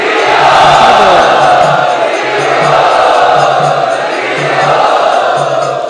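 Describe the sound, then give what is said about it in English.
A large crowd chants loudly in unison at an evening celebration, voicing gratitude to a spiritual teacher. The massed voices form a dense, sustained roar that swells and eases in slow waves. “Let us express our gratitude to His Holiness Radhanath Maharaj by very loudly chanting.”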